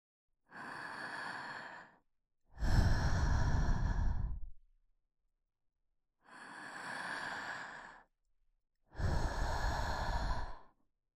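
Four long, slow deep breaths with pauses between them, alternating a softer breath with a heavier, fuller one, each lasting about a second and a half to two seconds.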